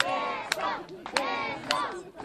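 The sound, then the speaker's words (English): A theater audience at a free performance of a Lorca play shouts at the stage, urging the couple to kiss: loud massed voices chanting in rhythmic bursts, each rising and dropping in repeated waves. “But the Imaginists and the crowd love it. They even shout at the stage, urging the couple to kiss.”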